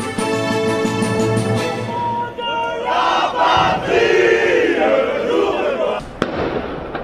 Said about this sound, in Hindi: ये आवाज है फ्रांस के सबसे प्रसिद्ध स्मारक आर्क द ट्रायंफ के बाहर नारे लगाते येलो वेस्ट मूवमेंट में शामिल प्रदर्शनकारियों की।